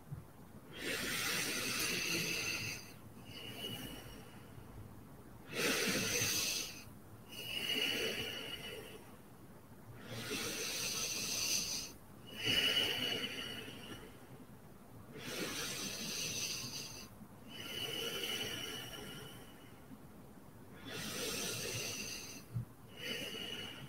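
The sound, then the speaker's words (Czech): Slow, steady breathing during a guided breathing exercise, drawing in through the nose and out through the mouth: soft airy hisses rise and fade in regular cycles with short pauses between them, and nobody talks. “Stále spojuješ nádech, výdech, výdech, nádech. Naplno nadechni nosem a lehce vydechni ústy.”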